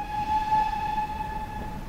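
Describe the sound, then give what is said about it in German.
Swanage Railway steam locomotive at a historic station beside Corfe Castle, giving a steady, sustained whistle-like tone with bright harmonics over a low rumble that dips slightly near the end. “Die Erkundungstour auf den Pfaden Enid Blytons geht über Schienen weiter. In direkter Nachbarschaft zur Corfe Castle Ruine liegt ein historischer Bahnhof. Hier machen nur die Dampflokomotiven der Swanage Railway Halt.”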